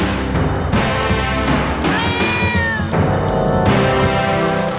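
A cat meows in one drawn-out, wavering cry near the middle. It sits over a dense, loud, continuous background that runs from start to end.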